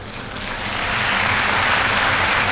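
An arena crowd roars after a back handspring dismount from a gymnastics beam routine, a broad wash of cheering and applause that builds over the first second and then holds loud and steady.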